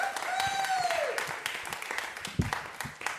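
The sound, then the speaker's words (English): An audience at a Sunday church service applauds the music team, with a steady wash of many hands clapping that gradually thins toward the end. “Thank you, music team. Let's give them another hand.”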